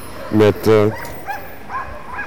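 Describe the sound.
Police dogs held by riot police cordoning off a street bark: two loud, sharp barks in quick succession, then a few fainter, shorter barks.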